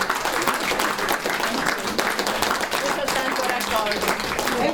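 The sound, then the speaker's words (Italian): Sustained audience applause for a teacher at an afternoon gathering: a dense, steady clatter of many clapping hands that lasts the whole clip, with some voices mixed in. “Un applauso anche alla professoressa.”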